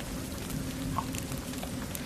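Rain falls as a steady, even hiss of dense drops, holding at a constant level with no talk.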